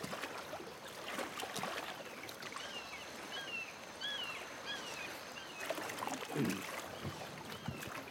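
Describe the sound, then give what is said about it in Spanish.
Oars dipping and pulling a rowboat through water, with irregular splashes and trickling over a steady watery wash, while a few short bird chirps sound above. “Jefe, ¿podría usted remar un poquito también?”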